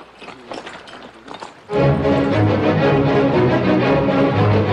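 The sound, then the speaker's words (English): The horses of a posse of riders set off, and a sudden loud, dense surge of galloping hooves breaks out after a quieter stretch of scattered movement, then continues steadily. “Let's move ahead as long as we can see. Everybody, get mounted! The riders saddle up.”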